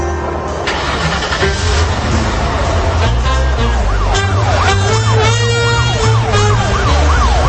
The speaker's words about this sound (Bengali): নাফিজ হাসান এবং ইমতিয়াজ আহমেদ দুজনে মিলেই পুলিশের গাড়িতে করে রওনা হল তাদের গন্তব্যে।